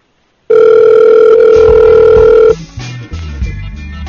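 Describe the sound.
A telephone dial tone while a number is hand-dialed: a loud, steady, even tone holds for about two seconds, then breaks off into a run of shorter, uneven lower tones and clicks.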